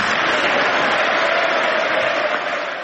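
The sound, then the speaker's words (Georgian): Ovation in the US Congress for President Donald Trump's speech: a dense, loud wall of clapping from many hands that holds steady throughout and eases slightly at the very end. “გამოაცხადა შეერთებული შტატების პრეზიდენტმა, რომლის გამოსვლასაც, როგორც მოისმინეთ, კონგრესში ოვაციებით შეხვდნენ.”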